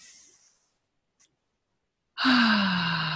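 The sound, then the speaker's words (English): Deep breath in a guided relaxation exercise, drawn in through the nose and let out through the mouth: a faint inhale, a pause, then a loud, long, breathy sigh whose low voiced tone slowly falls. “let's start by taking a couple nice deep breaths in through the nose and out through the mouth”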